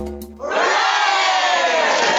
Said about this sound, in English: I can't hear about all this celebrating. Mate. Tell the screaming masses to be quiet just for a sec.